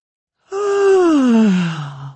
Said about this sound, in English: She yawned mightily